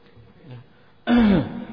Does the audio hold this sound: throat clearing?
yes

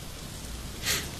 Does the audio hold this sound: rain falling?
yes

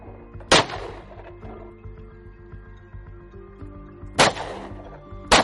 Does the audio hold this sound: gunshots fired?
yes

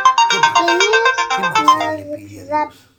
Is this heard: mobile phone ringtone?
yes

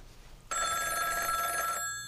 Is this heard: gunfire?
no

